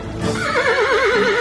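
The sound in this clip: A horse neighs in one loud whinny, its high voice trembling in a rapid, wavering vibrato that runs to the end.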